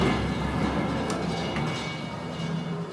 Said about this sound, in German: Du benutzt den Hebel und der Aufzug fährt nach oben.